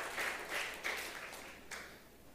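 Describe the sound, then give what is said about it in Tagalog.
A church audience applauds, with faint clapping that comes in a few short bursts and fades between them. “Palakpakan po natin yung Panginoon. Wow!”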